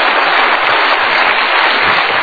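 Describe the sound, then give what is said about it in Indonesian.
Audience applause at a motivational talk show, a loud, dense patter of many hands clapping continuously for about two seconds with a dull, muffled tone. “Tepuk tangan boleh.”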